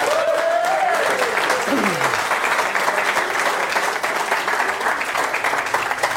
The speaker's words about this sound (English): Please give a warm Brummies welcome to Nick Morris.